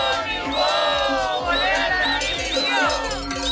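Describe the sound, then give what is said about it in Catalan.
Teachers protesting on the N230 road in Alta Ribagorça. A crowd shouts and chants in overlapping voices over regular low thumping beats, holding a steady, loud level throughout. “I aquest és el so d'una altra mobilització, en aquest cas també de docents, a l'N230, a l'Alta Ribagorça,”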